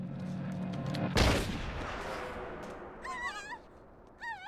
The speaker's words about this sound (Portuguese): Estão atirando, meu Deus!